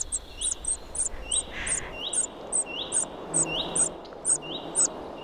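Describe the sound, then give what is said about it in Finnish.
Shrill, high-pitched begging calls of a cuckoo chick in a common redstart's nest, many short insistent peeps repeated at a steady, rapid rhythm, fairly faint over a soft hissing background. “Juha Haikolan äänitteen siitä, miten vaativalta se oikein kuulostaakaan, kun käenpoikainen kerjää leppälinnun pesässä. Ja se kuulostaa tältä.”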